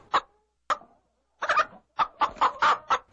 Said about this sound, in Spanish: ¿Una gallina?